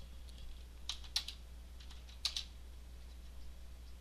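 A few quiet keystrokes on a computer keyboard being checked for a fault, falling in two short bursts of clicks separated by a pause, over a low, steady hum.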